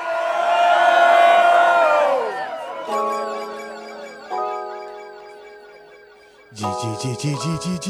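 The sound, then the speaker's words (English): A crowd at a UK garage DJ's label-launch night roars and cheers loudly. The cheer swells and then fades after about two seconds, and sustained electronic music tones follow, with a deep pulsing bass entering near the end. “can you make some noise for Conductor?”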